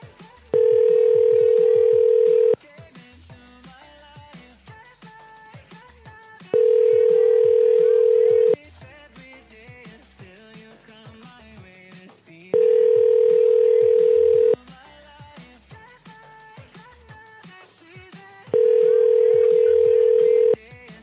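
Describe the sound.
Telephone ringing tone on a call to an old cell phone number: four long, steady tones of about two seconds each, separated by regular pauses, over a faint background sound.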